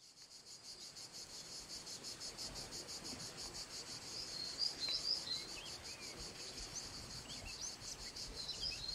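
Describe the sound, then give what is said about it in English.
Native forest ambience in southern Europe: a dense, shrill, pulsing chorus of crickets runs throughout, with scattered bird chirps and tweets above it, swelling slightly louder toward the end. “What you're hearing is the sound of a native forest in southern Europe.”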